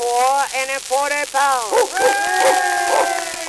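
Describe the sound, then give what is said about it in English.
Dogs barking, yelping and howling in an excited chorus while the dogs are being weighed on scales, with loud overlapping calls throughout. “Say, and keep them dogs quiet, will you?”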